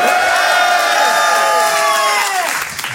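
An audience at the Grand Point Virgule comedy hall cheers and applauds at the end of a show, a loud, dense roar of clapping and whoops that holds steady, then thins out toward the end.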